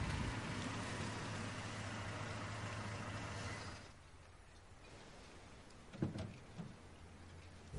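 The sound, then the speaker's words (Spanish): A car engine hums steadily, then drops away as the car stops beside fishing boats where fishermen are working, leaving near quiet with a faint thump; the whole sound is low and soft. “El coche de Rafa se detiene junto a las barcas, donde faenan algunos pescadores.”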